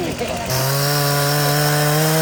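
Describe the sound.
A chainsaw felling a half pine trunk, its engine kicking in after a brief moment and holding a loud, steady, buzzing drone at a constant pitch.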